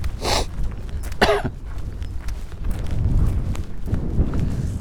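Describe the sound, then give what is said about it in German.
A person coughs, with two harsh, breathy coughs near the start, then quieter low noise continuing afterward. “Ich kann halt nichts für meinen Husten.”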